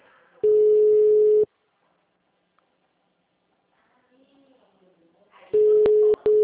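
A telephone ringing unanswered, heard as the caller's ringback tone: two steady, one-second tones separated by a long quiet gap with faint low murmuring, and a few short clicks at the end.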